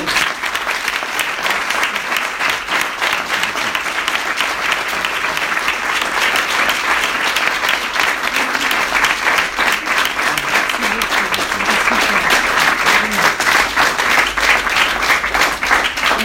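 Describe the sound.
Applause from an audience giving an ovation at a live talk event, with dense, steady clapping that stays loud and even for the whole stretch.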